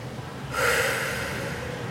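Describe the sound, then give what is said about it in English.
A deep breath is exhaled during a breathing meditation exercise: an abrupt, breathy rush of air about a third of the way in that swells, then sustains steadily and softly to the end, with no talk. “And then the exhale completely, keeping that light within, release the tension.”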